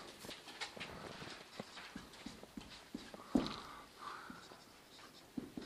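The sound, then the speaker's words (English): Someone writes notes by hand, giving faint scratchy pen strokes in short, irregular bursts against a quiet background. “Let me write this down.”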